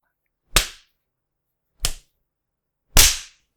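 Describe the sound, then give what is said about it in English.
Three sharp, loud whacks of a spanking, each a crisp slap standing alone with clear silences between them. “I would give you one whack for every day you annoyed me, but then we would be here all night. So, I'm just going to stop at 20.”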